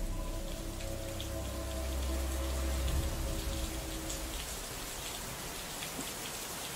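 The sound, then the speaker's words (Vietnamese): Steady rain falls and patters on surfaces, with a low rumble of thunder under the rain in the first half before the downpour continues alone. “Ở bên ngoài, trời dường như bắt đầu đổ mưa. Loáng thoáng trong đó còn có cả tiếng sấm sét đì đùng.”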